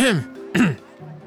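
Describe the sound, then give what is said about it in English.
A woman clears her throat in the middle of a street. She makes two short voiced bursts, like an "ahem", followed by a brief low hum. “she pauses in the middle of the street and looks both ways and then clears her throat.”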